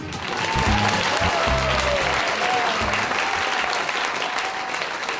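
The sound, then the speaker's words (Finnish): Audience applause welcomes stand-up comedian Ismo Leikola on stage: dense, steady clapping that swells quickly and continues at an even level to the end. “Arvoisa yleisö, esitys alkaa, joten toivottakaa raikuvilla aplodeilla tervetulleeksi lavalle stand-up-komikko Ismo Leikola.”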